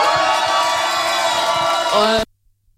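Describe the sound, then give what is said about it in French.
A crowd cheers and shouts for a performer at a show, a loud, continuous roar of voices and whoops that cuts off abruptly just before the end. “Faites du bruit pour Soro, s'il vous plaît.”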